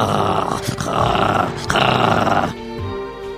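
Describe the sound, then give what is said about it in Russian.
A voice imitates a newborn's rough growling wheeze, a loud, raspy, continuous low snarl pushed out in several sustained bursts with no clear words. “Мать признавалась позже, что это было именно рычание какое-то,”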